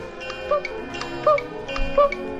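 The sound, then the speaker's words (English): Winnie the Pooh's "poo-coo" cuckoo clock sound effect: three two-note chimes, evenly spaced over a soft musical background. “Now when Pooh heard his poo-coo clock,”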